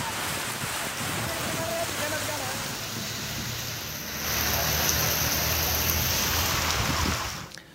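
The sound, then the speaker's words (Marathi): Unseasonal rain falls over Sangli city and its rural surroundings as a dense, continuous hiss that grows slightly louder midway and then cuts off abruptly at the end. “Sangli शहरात आणि ग्रामीण भागात देखील पावसानं हजेरी लावली आहे”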